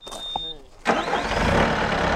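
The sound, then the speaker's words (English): A skid steer loader's engine starts up at a park where a disc golf course is being built. A sudden loud burst gives way to a steady, broad rumbling idle that continues to the end. “A skid steer has just fired up at North Boundary Park. It looks like a small tractor with a shovel on the front.”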